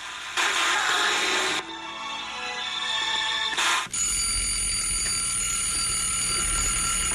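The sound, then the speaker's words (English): An alarm clock going off to wake someone, with two loud bursts of bright, metallic bell-like ringing followed by a steady, sustained high electronic tone. “The alarm just went off”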